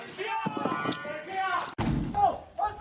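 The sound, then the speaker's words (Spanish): A single heavy bang as police force their way into a house in Getafe during a marijuana raid, heard amid voices that continue before and after the impact. “Era el momento en el que la policía entraba en un chalet de Getafe.”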